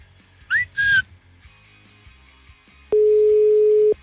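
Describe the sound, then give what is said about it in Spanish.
Telephone ringback tone while dialing a call: a single steady, mid-pitched tone lasting about one second, preceded by two brief whistle-like chirps, with no talk. “Le estoy marcando nuevamente a Susana y no nos contesta Susana.”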